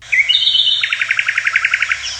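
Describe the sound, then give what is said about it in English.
Bird chirping from a played-back recording: a bright, high whistled note, then a quick, even trill of short repeated chirps. It is clear and steady, with no talk over it. “What a cute little birdie.”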